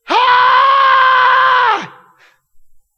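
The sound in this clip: A voice imitates a loud scream: one long, steady, high-pitched cry held for under two seconds before it drops off, followed by a few faint, short sounds.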